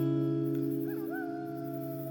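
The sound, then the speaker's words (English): A dust wolf howls, a fairly faint tone that rises and then holds a long, slightly wavering note over a steady low droning hum. “Just then a dust wolf howled”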